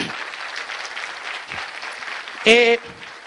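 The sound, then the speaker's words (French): A church audience applauding after a sermon, with steady clapping throughout and a loud shouting voice rising over it near the end. “Si vous avez aimé la prédication, j'aimerais que vous puissiez acclamer le Seigneur.”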